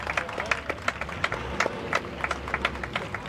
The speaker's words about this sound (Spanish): los vivas a la Santísima Virgen del Carmen y los aplausos